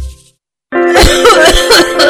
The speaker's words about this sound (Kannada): ತುಂಬಾ ದಿನದಿಂದ ಕೆಮ್ಮು, ಕೊರೋನಾ ಪರೀಕ್ಷೆ ಮಾಡಿಸಿದೆ, ನೆಗೆಟಿವ್ ರಿಪೋರ್ಟ್ ಬಂತು, ಆದ್ರೆ ಈ ಕೆಮ್ಮು ಕಡಿಮೆನೆ ಆಗ್ತಾ ಇದ್ವಲ್ಲ.